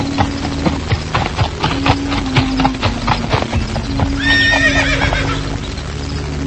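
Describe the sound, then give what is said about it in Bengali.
Hooves of a horse-drawn carriage clip-clop in a steady, brisk rhythm, and a horse whinnies partway through, all over a continuous low hum. “হঠাৎ ঘোড়ার গাড়ির আওয়াজে ছুটে জানালার কাছে চলে যায় জোনাথন”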